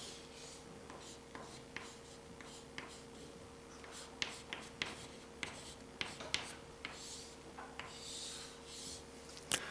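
Handwriting with a pen makes many short, faint scratching strokes in an irregular rhythm over a steady low electrical hum.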